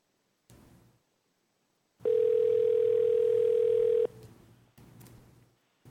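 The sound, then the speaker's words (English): A steady telephone dial tone holds for about two seconds while a number is dialed, then cuts off, with faint brief noises before and after it. “While we dial that number”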